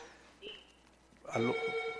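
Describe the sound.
Telephone ringing with an incoming call: a soft brief tone near the start, then a bright, sustained electronic ring that comes in partway through and holds, moderately loud, to the end.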